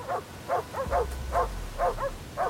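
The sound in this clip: Dogs barking near a sled team: several sharp, high barks and yips in an uneven burst, with a low rumble rising underneath partway through.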